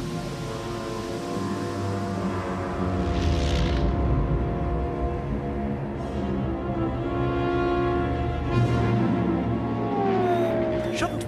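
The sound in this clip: The Millennium Falcon spaceship lands on a landing platform in a Star Wars audio drama. A deep, continuous engine rumble and drone carries several swelling whooshes of brighter hiss.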